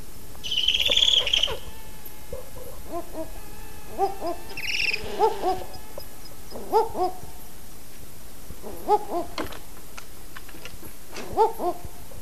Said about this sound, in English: You can hear the female calling with a trill, and the male speak back to her with his low roof roofs.